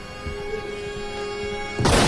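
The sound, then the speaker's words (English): One gunshot from a radio drama scene rings out near the end as a single sharp, loud blast, after a low, steady hum. “Figgis shoots and misses. Freddy spins and fires point blank at Donlan.”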